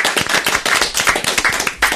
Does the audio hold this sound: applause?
yes